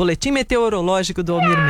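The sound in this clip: A cat meows, with drawn-out tonal cries mixed in alongside a voice talking; the final meow trails off with a long falling pitch.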